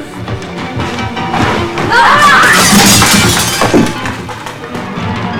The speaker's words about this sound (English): David breaks free and pushes Juliet into the utensil rack.